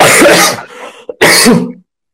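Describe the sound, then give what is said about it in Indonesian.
Two harsh, throaty coughs with a brief catch of breath between them, followed by silence. “di sela-sela batuk saya tetap bertanya ini”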